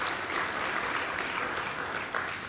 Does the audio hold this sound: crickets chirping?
no